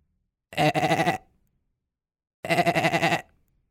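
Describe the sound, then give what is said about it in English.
Two bleats from a goat or sheep, each lasting under a second with a wavering, reedy, harmonic tone. A pause of more than a second separates them, and no other sound or voice is present. “sounds like a goat or a sheep or something”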